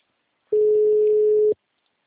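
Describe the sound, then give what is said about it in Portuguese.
Telephone ringing tone on an outgoing call: a single steady, low electronic tone lasting about a second, loud and clean, with silence before and after. “Tô tentando ligar aqui.”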